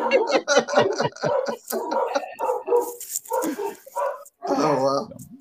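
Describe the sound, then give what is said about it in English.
Dogs barking behind people talking, the barks brief and mixed into the stream of conversation rather than standing alone. “And you can hear the dogs in the background of agreeing.”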